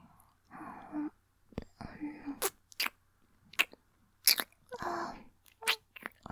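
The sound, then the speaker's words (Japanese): Ear-licking sounds: many close, wet smacks and slurps in irregular bursts, alternating with soft breathy whispered vocal sounds, all quiet and intimate. “お耳も舐めちゃう。いただきます。”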